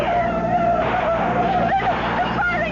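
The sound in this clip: A car engine drones with a steady, sustained whine while the car is driven in a chase, holding a fairly even pitch and loudness for the whole stretch, with rough road and tyre noise underneath.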